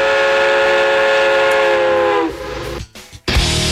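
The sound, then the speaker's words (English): Train whistle on a railroad track: a loud, sustained chord of tones that drops in pitch partway through, then breaks off into a short gap and rough rumbling. “I'd put my ear down to the railroad track and say, there's a train coming.”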